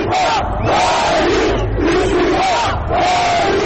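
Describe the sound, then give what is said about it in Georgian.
Football fans demonstrating in Turkey shout nationalist slogans in unison. A loud crowd chants in a repeating rhythm, with several forceful phrases following one another. “თურქეთი თურქებისთვის, გაჰყვიროდა ერთ-ერთი დემონსტრანტი.”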